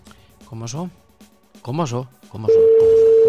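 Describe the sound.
A loud, steady telephone dial tone sets in near the end as a call is placed, following two short stretches of talk, with a voice continuing beneath the tone.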